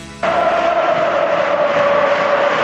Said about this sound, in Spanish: Ahora vuelve a animarse el público en Mestalla, tal y como va el partido cuando juega Gerard.